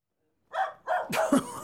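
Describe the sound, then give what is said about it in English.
A pet dog gives a few short, high yelping barks in quick succession, the last ones slightly longer and more drawn out. “There's my girl. What on earth do you think you're doing? What's you on about? This is my dog,”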